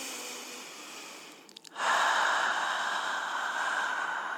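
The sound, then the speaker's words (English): Deep breathing in and out, heard as a long, steady, airy rush of breath that starts after a brief dip and carries on evenly, alone with no talking. “Let's take some deep breaths.”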